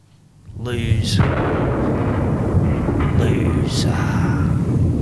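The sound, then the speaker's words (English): Rumbling, explosion-like air raid effects open a song, with a dense, steady roar and two brief whooshing swells rising above it. “And it sounds like a bit of air raid too.”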